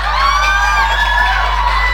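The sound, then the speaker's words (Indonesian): Audience cheering and whooping at a quiz contest. A dense, loud crowd roar with high shouts runs steadily through the whole moment. “Mari kita berikan tepuk tangan dulu untuk Win Padlan.”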